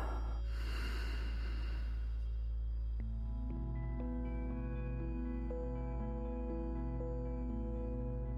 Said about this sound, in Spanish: Inhala. Y exhala.